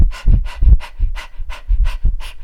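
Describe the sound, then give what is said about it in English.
A person panting like a dog, with many quick, loud, rhythmic breaths in and out at a steady pace and no talking. “So, for example, when I pant, it sounds like”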